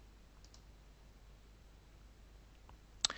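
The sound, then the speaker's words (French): A computer mouse clicks on a button: one quick, sharp click near the end, after near silence, followed by a fainter tick. “Et je clique sur le bouton « Sélectionner des fichiers ».”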